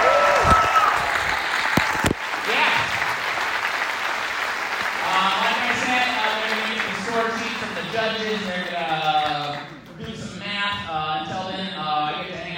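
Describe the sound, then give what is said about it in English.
Audience applause for five contestants at a live show, a steady wash of clapping that runs the whole length, with voices and tonal sounds over it. “how about a round of applause for all five contestants?”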